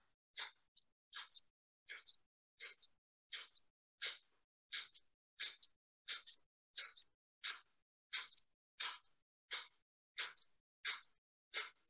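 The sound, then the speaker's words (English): Many forceful rhythmic exhalations through the nose in a Breath of Fire breathing exercise, each a short breathy puff that pumps the belly, repeating at a fast, even pace with quiet natural inhales between. “Okay, so what you'll do is you'll breathe out your nose forcefully. And then the inhale is just kind of natural. And as you breathe out forcefully, the belly will push in. And so it's like this.”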